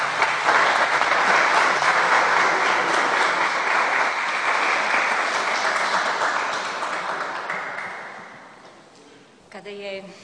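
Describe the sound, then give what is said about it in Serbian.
An audience applauds after a film screening. Loud, dense clapping goes on for several seconds, then fades gradually away, and a brief voice follows at the very end. “Sada bih zamolio da se nama obrati rediteljka ovog divnog filma, Ljubica Stefanović, i još jedan aplauz za vaš film.”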